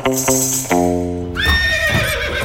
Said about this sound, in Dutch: Maar paarden zijn niet toegelaten in de winkel.